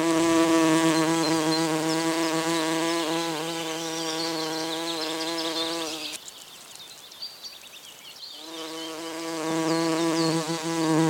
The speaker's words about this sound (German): Das war eine Hummel.